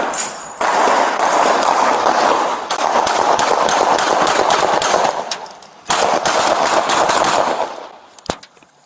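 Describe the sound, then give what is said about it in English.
Rapid gunfire in many dense, loud bursts, sustained almost throughout with a brief break near the middle, before it thins out and one last sharp shot sounds near the end. “Shots fired, officer needs help.”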